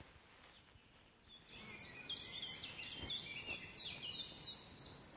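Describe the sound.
Bird call announcing prey: faint, high, quick chirps repeated many times over a quiet background, starting after a short near-silence.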